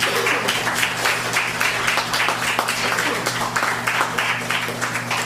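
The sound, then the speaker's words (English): Audience applause after a poetry reading at an open mic night, a continuous crackling patter of many hands clapping at a fairly even level throughout. “Let's give her another hand.”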